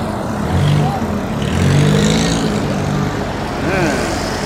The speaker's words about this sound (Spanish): Ah, hay tráfico acá, hoy día.